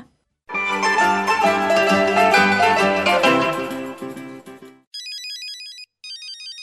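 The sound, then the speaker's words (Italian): A mobile phone ringtone: two bursts of a high, rapidly alternating electronic ring pattern with a short gap between them, after a dense, loud stretch of music. “Il tuo cellulare sta squillando. Che faccio? Rispondo?”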